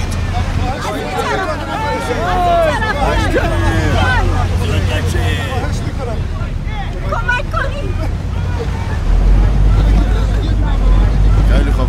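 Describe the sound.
A boat on the water during the rescue of airline passengers from near-freezing water in cold wind, with wind buffeting and many overlapping voices over a steady low engine rumble that grows louder near the end.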